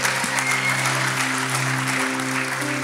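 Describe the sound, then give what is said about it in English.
Congregation applauding in a church, a dense, steady wash of clapping that holds for the whole stretch, with sustained low musical tones beneath. “Can we just take a moment just to celebrate and just to put our hands together?”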